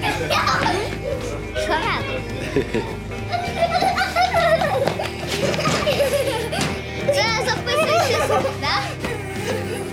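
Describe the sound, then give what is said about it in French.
Five children play football in a garden at a house among fields, filling it with overlapping high-pitched shouts, chatter and giggles that stay lively and fairly loud throughout. “Là, ça y est, ils se détendent et on les entend. Ils ont trouvé un ballon, ils jouent au football.”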